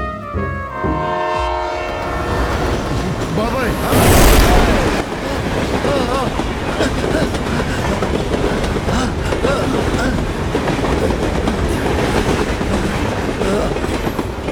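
A train rolls along rails with a loud, continuous rumbling clatter. A horn tone sounds near the start and a heavy burst of noise comes partway through.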